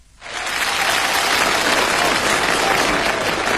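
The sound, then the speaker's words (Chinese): Audience applause at a comic crosstalk performance: after a brief quiet moment, loud, dense clapping swells up quickly and holds steady as a continuous roar to the end. “这个朋友们一鼓掌啊，我明白什么意思”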